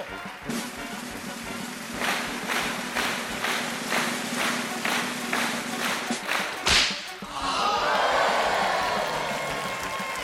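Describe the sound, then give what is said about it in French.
A whip cracks again and again to shorten a long paper cigarette held in a woman's mouth during a stage act. Many sharp snaps come in a steady rhythm, ending with a louder final crack. “Au premier coup de fouet, la cigarette a perdu un centimètre. À chaque coup, elle en perdait un de plus, jusqu'à ce qu'il n'en reste qu'un minuscule mégot.”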